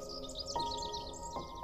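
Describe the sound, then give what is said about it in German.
Birds singing cheerfully, a lively run of quick high chirps and twitters that rises and dips over a soft, steady tonal background, with no talking. “Die Vögel trällern dir ihr fröhlichstes Lied.”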